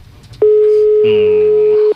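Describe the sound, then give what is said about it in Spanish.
A Movistar voicemail tone sounds as a single long, steady electronic beep, loud and even for about a second and a half. A low buzzing layer joins it partway through, then the beep cuts off cleanly. “Otra vez. Buzón Movistar.”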